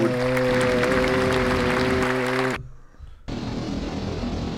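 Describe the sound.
Audience applause for a sponsor segment breaks in after a steady droning tone cuts off and a short near-silence. The clapping then continues as a dense, even wash to the end.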